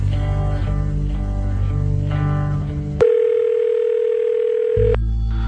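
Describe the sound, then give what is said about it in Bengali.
A telephone ringing tone from a late-night call plays as one long, steady, mid-pitched tone lasting about two seconds, with music before and after it. “প্রথমবার sir phone ধরলেন না, কিন্তু দ্বিতীয় কলেই sir phone ধরলেন।”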